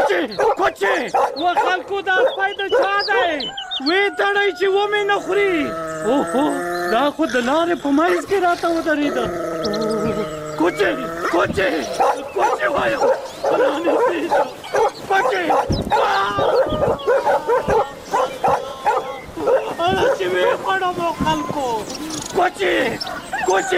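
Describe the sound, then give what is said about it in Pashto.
A large dog barks amid voices, its barks mixed in with ongoing talk through most of the stretch. “دا څومره غټ سپی دی”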